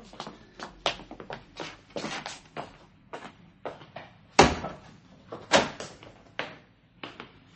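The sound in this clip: A shop door is opened in a series of knocks, rattles and clunks. Two sharper bangs stand out midway, and lighter taps continue around them.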